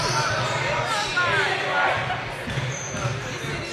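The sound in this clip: A basketball is dribbled during a game, with several low, rhythmic bounces under a commentator's steady play-by-play and faint crowd noise.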